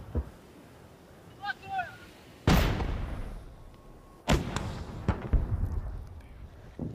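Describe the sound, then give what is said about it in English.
Artillery fire during an advance on Kherson: two heavy, sharp booms a couple of seconds apart, each trailing off, with smaller thuds after them over a low rumbling background. “We're advancing on Kherson. The orcs are firing everything they've got.”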